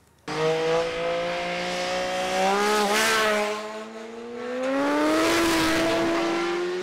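Engine roar of cars speeding through a curve on a hill road at over 100 km/h, a steady loud harmonic drone that dips briefly, then swells again with rising pitch near the end; no voices.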